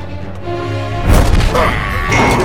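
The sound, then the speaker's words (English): A Force push sound effect from Star Wars: The Clone Wars bursts out midway as a sudden loud, rushing blast. It follows a quieter tonal stretch and trails into a lingering roar. “Big force push there.”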